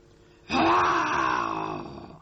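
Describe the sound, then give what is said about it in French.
A tiger growls in one deep, rumbling roar that starts abruptly, holds for about a second and a half, then tapers off. “Encore un tigre, un troisième tigre, un autre tigre.”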